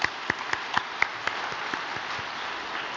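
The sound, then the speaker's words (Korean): An audience claps in encouragement after an appeal for support of a mission in Guinea-Bissau. A few sharp distinct claps open the faint applause, which then settles into a soft, even patter. “이 정성이 모여서 신 기니비사우로 거듭날 수 있도록 다시 한번 격려의 박수 부탁드리겠습니다.”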